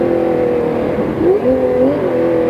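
A Porsche 917K race car engine accelerating and shifting from second to third gear, a loud, steady droning roar whose pitch dips sharply once and then climbs again.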